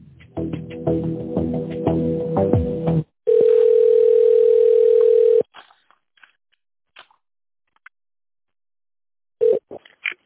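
Telephone line tones play while a call is transferred: a few seconds of layered tones, then a loud steady tone lasting about two seconds, followed by near silence with faint clicks and a short beep near the end, with no talk.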